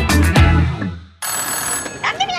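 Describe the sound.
A telephone rings in a restaurant. The ring is a steady electronic tone with sustained high pitches, and it starts abruptly partway through after a short stretch of other sound.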